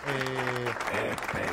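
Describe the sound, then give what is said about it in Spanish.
Audience applause from a live crowd, a dense steady clatter of clapping throughout, with some sustained tonal sounds in the first half. “Un buen aplauso”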